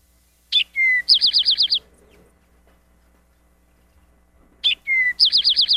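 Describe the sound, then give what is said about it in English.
Eastern Towhee song in two matching phrases: each opens with a sharp high note and a lower clear note, then a quick buzzy trill of about seven notes. A few seconds of near silence separate the two phrases. “I'm going to put the Eastern Towhee on just for a short time here so you can hear it say, drink your tea. Eastern Towhee.”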